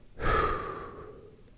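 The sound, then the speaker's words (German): A single deep breath is taken in and then released, forming a soft whooshing rush that swells quickly and fades away slowly. “atme einmal tief ein und feste deutlich wieder aus”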